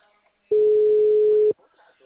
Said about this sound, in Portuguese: vou fazer uma ligação aqui